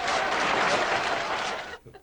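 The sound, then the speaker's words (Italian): Applause from a front-row audience: dense, steady clapping holds loud for nearly two seconds, then cuts off sharply into a few faint, scattered sounds. “La prima fila fa così. Bravo! 92 minuti di applausi!”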